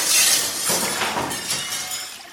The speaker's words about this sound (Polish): tak niefortunnie ruszyła ręką, że trąciła stojące pomiędzy kwiatami akwarium, które z wielkim hukiem spadło na ziemię.